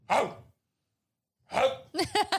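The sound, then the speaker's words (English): A person imitates a dog barking, giving a few rough, throaty bark-like shouts separated by a silent gap, with the later ones breaking into short choppy voiced bursts. “what would happen if I just went to the Met Gala and I just started like barking?”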